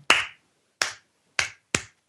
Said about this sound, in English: It's kind of that slow clap, though. Yeah, a little wiser clap.